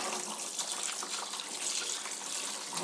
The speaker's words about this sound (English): Out comes water. Rinse hands. Thoroughly.